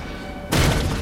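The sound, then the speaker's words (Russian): Naval gunfire from 5-inch guns sends shell explosions up beside a submarine at sea: a sudden heavy blast breaks in after a quieter stretch and keeps roaring, with another hit at the very end. “Рядом с подводной лодкой поднимаются взрывы.”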